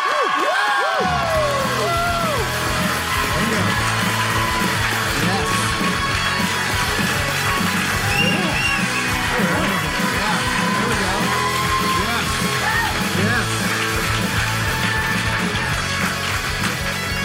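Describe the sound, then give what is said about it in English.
A live audience in downtown Toronto cheers and applauds, a dense, steady wash of clapping and whooping voices that starts abruptly and stays loud throughout without pause. “Thank you all so much for showing up. And why don't, you know what, let's do that again and give a warm welcome, a warm Torontonian round of applause”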